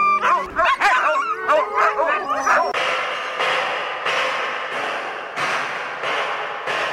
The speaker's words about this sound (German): Unsere Hunde sind sehr nervös.